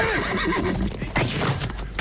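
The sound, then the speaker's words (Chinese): Horse hoofbeats mix with loud, wavering neighs and whinnies. The sound is dense and continuous throughout, with no pauses. “听马蹄声。”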